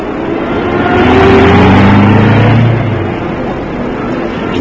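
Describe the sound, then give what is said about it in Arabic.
A taxi's car engine pulls away: a steady, loud roar that swells over the first seconds with low engine tones rising, then eases back to a softer running hum. “قدامك اهو تاكسي فاضي، اركب اركب.”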